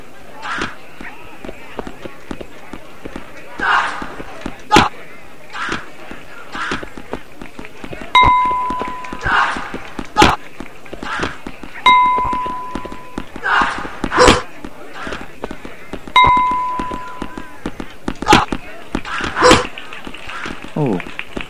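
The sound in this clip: In a video game, balls are hit and bounce in a rapid run of sharp, dry knocks, with three short electronic beeps spaced through the action and a man talking over it.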